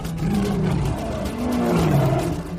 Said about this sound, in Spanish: Otra vez, un inmenso rugido hizo temblar el agua misma de la orilla y los tigres desembocaron en la costa.